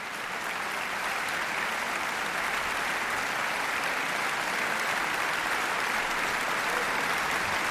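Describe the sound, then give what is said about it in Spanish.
Sustained, even applause from a concert audience after a performance of Brahms's Violin Concerto in D major, Op. 77, by a Catalan national orchestra. Dense, steady clapping holds at the same level throughout with no break. “Ha habido una gran complicidad entre orquesta, solista y director que se ha transmitido al público de la sala y por eso agradecen con esta cantidad de aplausos esa conexión.”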